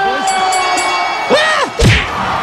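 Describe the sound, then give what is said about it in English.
A boxing crowd cheering wildly after a knockout, with rising shouts and whoops over a steady roar and a heavy thud near the end. “Wow, that's the fastest knockout in boxing history. The crowd goes wild.”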